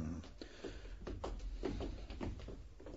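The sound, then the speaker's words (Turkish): A jail cell door is opened with quiet clunks and rattles of the latch and door, a few soft knocks spread across the moment. “Aç bakalım hücrenin kapısını. Açayım şerif. Şimdi açarım. Aa, hücrenin kapısı açıkmış.”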